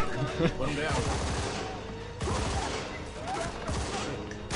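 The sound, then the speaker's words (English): Gunfire in a video game shootout, a dense, sustained clatter of overlapping shots, loud throughout, with a sharp fresh volley breaking in midway. “Wow, shot him in the head and he just turns around and shoots back at him.”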